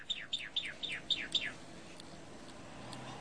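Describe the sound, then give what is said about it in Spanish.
A calandria (Mimus saturninus) mockingbird sings six clear, high whistled notes in quick succession, each sliding downward, followed by a few fainter notes over a quiet background. “la calandria, que es un pájaro imitador, un pájaro que tiene una gran diversidad de cantos, imita muchos pajaritos.”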